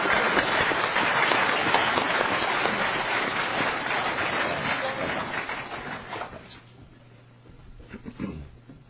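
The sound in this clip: Sustained applause from an audience welcoming a speaker at an Alcoholics Anonymous gathering: dense and loud at first, then gradually thinning and fading out, followed by a few quieter scattered sounds.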